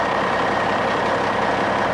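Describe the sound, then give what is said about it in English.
A truck's engine rumbles as the truck backs slowly, a loud, steady low drone that holds without change throughout. “I always invite people to watch as Mandy backs the truck over.”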